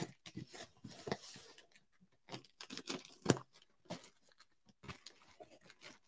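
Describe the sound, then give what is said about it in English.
Packaging tape rips open on a cardboard box of Adidas goods, heard as many short, dry tearing bursts with papery crinkles between them, irregular in rhythm and fairly quiet. “The tape of the packaging on the box ripped open this first piece right here.”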